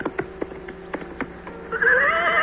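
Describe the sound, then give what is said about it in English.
A galloping horse sounds a run of rhythmic hoofbeats, then a loud, high, wavering neigh rises over them and carries on to the end. “reached out and grasped it by its hilt and pulled it out, then galloped back to the tournament and his brother, Sir Kay.”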